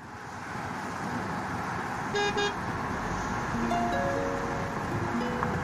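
Busy street traffic rumbles in a dense, continuous roar while car horns toot a few times over it, one short double beep and then several longer honks.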